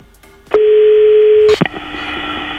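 Telephone tones from a number being dialed: a loud, steady electronic tone holds for about a second and breaks off with a click, followed by a quieter, continuous line tone.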